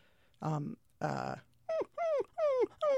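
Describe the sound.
A human voice imitates a dog whining: two rougher, lower vocal bursts give way to four high, tonal whimpers, each sliding downward in pitch, clear and close together.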